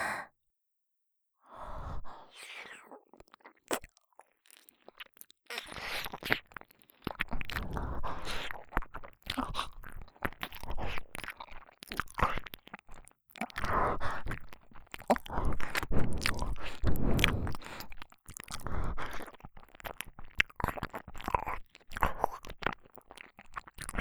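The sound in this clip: Food being chewed during a meal, wet crunching and biting bursts repeating irregularly over many cycles, with soft breaths and sighs between mouthfuls and no talking.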